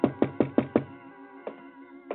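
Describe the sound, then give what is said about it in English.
Knocking on a door on a winter night at the quarters in La Rábida: five quick, evenly spaced knocks with a hollow, ringing tone, followed by two slower, softer knocks. “I was in my quarters at La Ravida, and there was a knock.”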